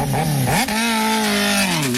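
A Bajaj motorcycle engine revs loudly and continuously; its pitch climbs sharply at about half a second, holds steady, then dips slightly near the end.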